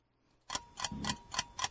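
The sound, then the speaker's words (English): A countdown timer ticks during a trivia quiz question, giving five crisp clicks at a steady pace, faint and alone with no talk. “I'll let the timer run out, and we can move to question number 3.”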